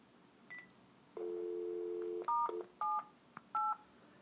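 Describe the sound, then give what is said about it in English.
Telephone keypad tones dial star 78 on a phone line: a steady dial tone hums for about a second, then a few short, clear electronic beeps follow at an even pace. “I'm going to try this thing again. I'm dialing star 78.”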